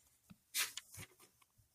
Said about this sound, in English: Say that as I'm writing it down, too.